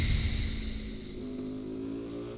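A motorcycle engine drones in a racing video game, holding a steady, low, buzzing hum with faint tonal overtones. The sound stays quiet and fairly even throughout, with no talk over it.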